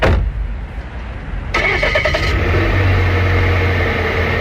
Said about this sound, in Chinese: 又开车准备去巡护